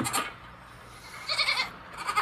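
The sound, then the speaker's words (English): Goats bleating at evening milking: a few loud, nasal bleats spaced across the moment, with no talk over them. “this is what I do every night to milk the goats”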